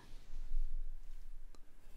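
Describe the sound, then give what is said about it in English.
Drawing on paper makes a continuous, scratchy rubbing sound of steady strokes at a moderate level, with no voice heard. “While I was thinking about putting that sentence together, I was like, couldn't put it together because I was drawing.”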